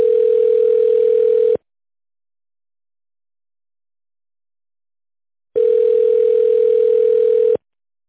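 Steady telephone line tone while a call is being transferred: two long, even, mid-pitched tones of about a second and a half each, separated by a silent gap of several seconds, with no talking.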